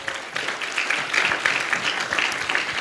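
A church audience applauds during a worship service to acclaim the word of God. The clapping is a steady, moderately loud patter with a few sharper swells, and no voices come through clearly.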